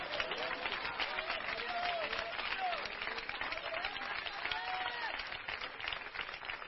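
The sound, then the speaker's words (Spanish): Applause from a church audience: a dense, steady wash of many hands clapping that holds at an even level throughout, with voices rising and calling out over it. “Mire, oiga esos aplausos.”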